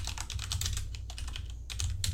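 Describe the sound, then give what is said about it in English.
Typing on a computer keyboard: a rapid, steady stream of crisp plastic key clicks with no voices, continuing evenly throughout. “And I'll type that out so y'all know how it's spelled.”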